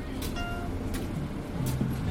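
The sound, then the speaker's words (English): A transit card tapped to board a bus in Chicago brings short electronic reader beeps early on, set over the steady low engine rumble and clatter of the bus. “This is the sound of me tapping on my card to board a bus”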